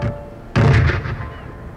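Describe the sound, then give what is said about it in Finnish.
An artillery shell fired across a ship's bow lands as one loud, heavy boom that cuts in abruptly after a quiet moment and then decays into a lingering rumble. “Ne ampuivat granaatin keulamme eteen.”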